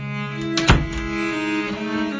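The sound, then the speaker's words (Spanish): A door closes with a single dull thunk partway through, set against a steady low background tone. “Pero cierra la puerta, no quiero que nadie escuche.”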